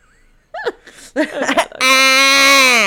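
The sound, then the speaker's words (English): People imitate goat bleats with their voices: a few short yelps and breathy cries, then one long, loud, nasal bleat held steadily for more than a second. “We're probably getting somebody's goat by making goat noises.”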